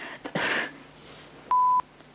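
A beeper sound effect: one steady, mid-pitched electronic beep, fairly loud and lasting about a third of a second, following a brief burst of noise.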